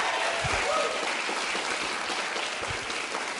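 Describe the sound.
A live audience applauds as a guest is welcomed to the stage. The steady, fairly soft clapping runs evenly for the whole stretch.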